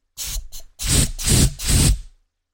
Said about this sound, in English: You could take compressed cans of air. Sounds like this.